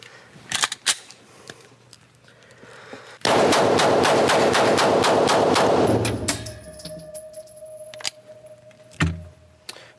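A gun is fired repeatedly in a timed rapid-fire run, releasing a dense, loud burst of many quick shots over about three seconds. Sharp metallic clicks and handling noises come before and after the burst.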